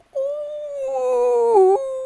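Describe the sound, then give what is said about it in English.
A person's voice imitates a wolf howl: a loud, sustained tonal wail about two seconds long. It holds a fairly steady pitch, then drops lower and breaks near the end, heard alone. “Ooh, I sounded like a wolf then.”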